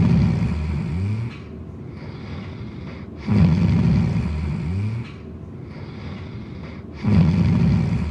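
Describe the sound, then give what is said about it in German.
A sleeping person snores in a slow, regular rhythm. Loud rattling breaths alternate with quieter, rasping sawing breaths, all heard alone and repeating over several cycles. “Erst beim Ausatmen entsteht das beruhigende Sägen. Genießen wir nochmals den seltenen Gesang.”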